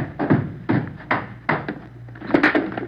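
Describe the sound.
A gun thrown down a staircase makes a string of about five heavy, uneven thumps and clatters as it tumbles, fairly loud with no voices over it.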